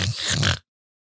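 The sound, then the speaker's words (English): A person snorts sharply through a nose blocked by pollen allergies, trying to clear the sinuses. A single rough, breathy nasal burst lasts about half a second, fairly loud, then cuts off into silence. “thank you for sticking it out in the few snorts here and there as I'm trying to keep my sinuses clear so I can actually talk”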